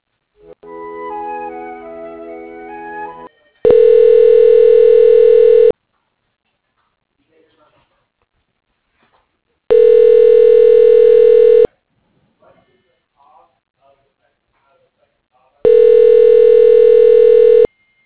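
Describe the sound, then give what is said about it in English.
Ringback tone sounds while a telephone call is transferred: three long, steady, loud tones of about two seconds each, separated by longer silent gaps, following a short stretch of talk at the start. “Okay, I can transfer you. Hold on.”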